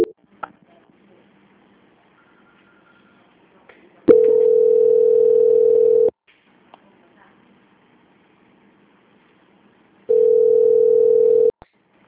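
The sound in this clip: Two long, steady telephone line tones play during a call transfer, each lasting about two seconds with near silence between them, over faint background noise.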